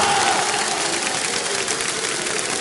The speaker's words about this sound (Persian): گفت یه کف دستت حب مولا علی، یک کف دست صورت دومی، میخوام چنان کف بزنی که امروز کور بشه چشم دشمنای علی، بزن